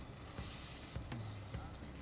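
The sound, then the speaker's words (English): Steak sizzling as it is laid into smoking-hot oil in a pan, a faint, steady hiss of frying with no voices. “You just want that oil as hot as it can get, flirting with the smoke point. All right, this oil's smoking. Ready? Steak.”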